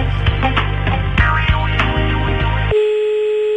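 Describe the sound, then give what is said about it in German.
Telephone line tones sound while a call to Telekom waits to connect: loud, layered tonal sounds give way to a single steady, sustained tone. “habe ich schon vor ein paar Minuten die Nummer von der Telekom gewählt und Sie hören, wir hängen drin.”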